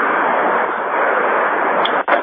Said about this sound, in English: Oh, I hear the sound weapon.